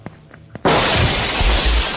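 Window glass shatters as someone jumps through it. A few soft thumps come first, then a sudden loud burst of breaking glass followed by a dense, sustained crash of tinkling shards.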